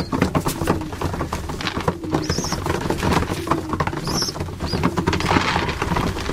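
Pigeons coo now and then over a constant, busy rustle of movement and noise.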